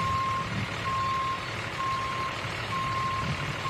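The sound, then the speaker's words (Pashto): Backup beeps from a truck or tractor-trailer reversing to park on a street sound as an evenly spaced series of long, steady, mid-pitched tones over a constant low engine rumble. The whole clip is fairly faint. “په یوې کوڅې کې تمرین کوي چې څنګه د ټریکټر، ټریلر یا ټرک پارک کړي”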